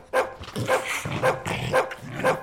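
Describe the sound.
A slobbery dog barking: five sharp, mid-pitched barks at an even, regular rhythm, loud and alone with no talk.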